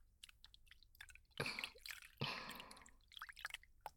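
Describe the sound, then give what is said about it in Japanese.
Warm water rinses hair, giving soft wet squishing and dripping sounds. Two longer splashy bursts stand out among the small drips, and everything stays very faint. “丁寧に流していきます。お湯の温度、いかがですか？”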